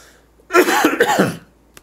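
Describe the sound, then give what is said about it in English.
A cough, one loud, rough burst lasting under a second, with a raspy, throat-clearing quality, followed by a faint tick and quiet. “Let me mute my mic here so I can cough.”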